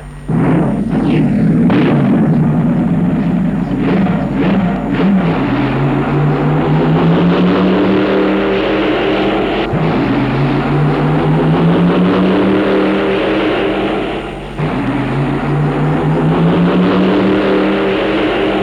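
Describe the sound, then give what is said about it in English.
Roaring engines of big rail drag racing cars running down a drag strip. The loud, sustained roar rises in pitch several times in successive surges. “Do dig these sounds. Went drag racing a couple of weeks ago, and if you've never been drag racing, I'd advise you to take a pair of earmuffs with you, because when them big rails go down a strip, I mean, it's like about 400 decibels and it just about shakes you off the floor.”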